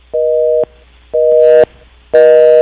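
Telephone busy tone after a line has disconnected: three steady, buzzy beeps of equal length, evenly spaced and clearly loud, with nothing else heard.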